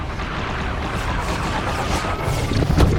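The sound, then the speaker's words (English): Missiles striking an alien enemy warship protected by energy shields: a dense, continuous roar of crashing impacts and rumble with no pause, swelling into heavier booms near the end. “Missiles from the Commonwealth rain down on the enemy ship.”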